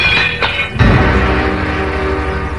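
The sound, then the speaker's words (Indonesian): A carved clay water jug and cup fall from a stone table and shatter. A single sharp crash sounds early on, over a continuous, steady rumbling background. “Maka tak ayal lagi, kendi dan cawan dari tanah berukir itu jatuh dan pecah berantakan.”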